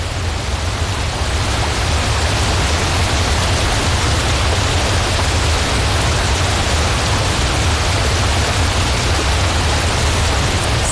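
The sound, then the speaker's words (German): A waterfall with 14 cascades drops 500 metres into Lake Brienz, giving a steady, dense, unbroken rushing roar that stays at the same loudness throughout, with no voices. “Der Giessbach stürzt über 14 Kaskaden und eine Gesamtlänge von 500 Meter runter in Brienzersee, der ja wiederum auch wunderschön aussieht.”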